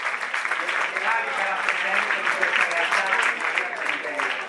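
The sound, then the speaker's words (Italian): An audience claps steadily in sustained, dense applause throughout, welcoming a newly founded foundation at a gathering with students. “E quindi facciamo un applauso alla neonata fondazione di Massimo.”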